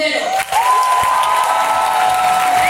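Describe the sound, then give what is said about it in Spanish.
A theatre audience in Madrid gives an ovation at a women's day event, with dense, continuous applause and crowd noise and a thin, steady whistle-like tone running through it. “Ovación aquí a la ministra de Igualdad, Irene Montero.”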